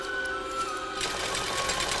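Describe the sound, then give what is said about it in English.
A sewing machine stitching animal pelts: a steady mechanical whir with rapid, even needle chatter that becomes denser and louder partway through, with no voices. “Elderly people stitch pelts.”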